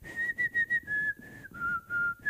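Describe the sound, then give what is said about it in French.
Whistling carries a pop song melody into a microphone, made of a run of short clear notes followed by a few longer held tones. The tune steps gently downward in pitch, with no speech or accompaniment. “Je ne sais pas si vous replacez un peu l'air que je vais tenter de vous siffloter.”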